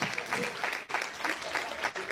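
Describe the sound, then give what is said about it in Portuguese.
A church audience claps during a service. The clapping is quiet and pulses in uneven bursts, with voices mixed in underneath. “e bem bonito as palmas, que é para Jesus.”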